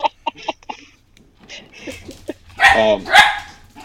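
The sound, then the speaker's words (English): A dog barks, opening with four short, sharp barks in quick succession. A pause follows, then more barks and louder, longer yelping cries toward the end. “That is a dog. Don't worry about him. He is not in the game.”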